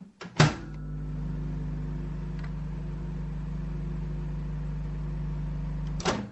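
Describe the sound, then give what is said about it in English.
A microwave oven runs with a steady, loud, low hum for about 15 seconds while something melts inside. A sharp click marks the start and another marks the end. “do you want to put your microwave on?”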